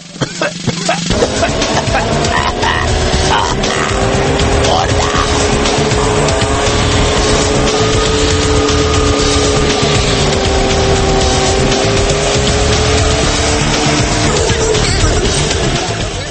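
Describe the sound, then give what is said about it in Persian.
A beat-up old car's engine gives a loud, rough drone with a steady rumble and a tonal whine. It runs without a break, its pitch drifting slightly. “الان یه ماشینی که از فرط داغونی به جای دود گاز خردل تولید میکرد از اینجا رد شد”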